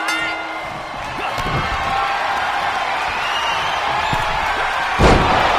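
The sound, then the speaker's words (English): A heavy gut wrench slam lands in a wrestling video game, a single deep thud near the end over a steady roar of cheering crowd noise that fills the whole stretch. “Bobby Roode with a gut wrench slam. Oh, that could have been it.”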